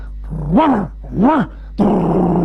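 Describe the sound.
A human voice imitating a growling dog: two drawn-out growls that rise and fall in pitch, followed by a harsher, noisier snarl.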